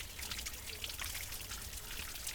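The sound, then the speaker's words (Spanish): Water trickling as it rinses the mouth and tongue of a slaughtered guinea pig: a faint, steady, hissing stream with no pauses. “Se le corta aquí para lavar la boca, la lengua que está de la hierba que se come.”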